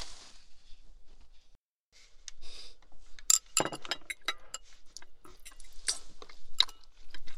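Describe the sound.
Quiet chewing during a meal, with soft bites and crunches scattered over several seconds and a few sharper clinks of glass or tableware.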